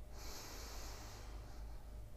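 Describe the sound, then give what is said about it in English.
Slow, deep breathing during a guided relaxation exercise: a soft, airy hiss of breath that swells for over a second and then fades, faint and alone. “let's go ahead and take three deep breaths in. Breathe in and out.”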